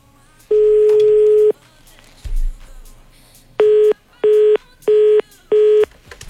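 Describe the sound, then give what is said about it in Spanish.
Telephone tones from a call that is dialed but never connects: one long steady tone, a dull thump, then four short, evenly spaced beeps. “No tuvimos éxito en esta llamada, la marcamos, pero bueno, pues no tuvimos éxito a la hora de recibir esta llamada especial”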